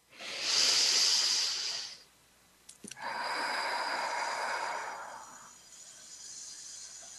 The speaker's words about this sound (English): So let's take a second to breathe.